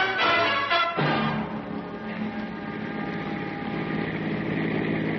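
A car engine runs with a steady, low, dull rumble that continues without pause for the whole stretch.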